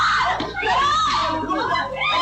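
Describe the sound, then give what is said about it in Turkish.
High, strained screaming from a baby and its mother during a pitbull attack on a street, caught on camera. The shrieks and wails run continuously and loud, with shifting pitch throughout. “Bebeğin ve annesinin çığlıkları kameralara işte böyle yansıdı.”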